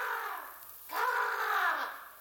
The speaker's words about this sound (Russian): Видите, на старой лесной яблоне, вон там, вон, сидит ворона.